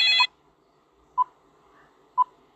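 Electronic telephone ring tone: a short buzzy multi-tone burst, followed by two brief mid-pitched beeps about a second apart, with nothing else in between.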